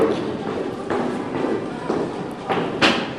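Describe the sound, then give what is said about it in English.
Footsteps go down stairs toward a university building's basement swimming pool in Brisbane, a series of dull thuds in an even walking rhythm over a steady hiss, the last step the loudest. “Now, come with me as we head away from the coast and down these stairs to the basement of a university building in Brisbane and to their swimming pool.”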